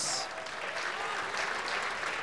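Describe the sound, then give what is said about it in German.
Audience applause inside a tent at a community gathering welcoming a town mayor, dense continuous clapping that holds even and fairly faint from start to finish. “Dein Applaus.”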